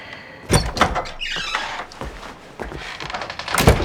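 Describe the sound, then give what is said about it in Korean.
A kitchen door opens with a few dull knocks and thumps, plus a brief scraping slide in the middle. The sounds are moderately loud against low background noise. “승주가 주방문을 열고 나간다.”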